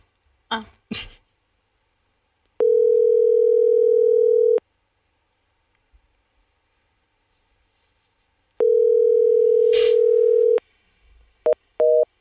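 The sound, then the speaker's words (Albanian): Ringback tone of an unanswered phone call: two identical long, steady mid-pitched tones about two seconds each, separated by a quiet gap of several seconds, with a few short clicks and rustles before and after. “Nuk na hapi telefonin.”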